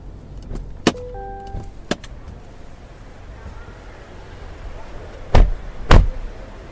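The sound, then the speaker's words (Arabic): Car pulling up at a hotel entrance in Dubai: a low vehicle rumble with a few sharp clicks and a brief whirring hum early on, then two heavy thumps close together near the end. “روح انزل انت على ما اشوف لنا موقف. ما يحتاج، وقف عند الباب والفالي راح يوقف السيارة بدالك.”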